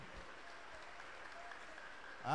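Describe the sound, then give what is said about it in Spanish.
Applause from a church audience, a steady, even patter of many hands clapping together, fairly soft and sustained throughout without a break. “Todos, gloria a Dios. Un aplauso para el Señor Jesús.”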